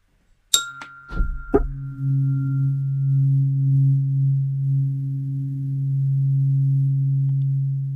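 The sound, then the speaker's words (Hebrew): A low Om meditation tone, a pure steady sine hum, plays for several seconds after a few quick metallic clinks at the start. The hum stays smooth and unbroken, with a slight, slow swell in loudness. “את המדיטת עצמה אני אלווה גם עם צליל אום, שיש לי אותו גם בקולנים, הוא נשמע ככה.”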